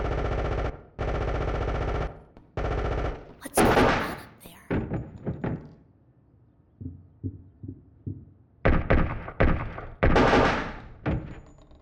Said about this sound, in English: Breach in 3, 2, what's that? Contact. Open fire. Man down.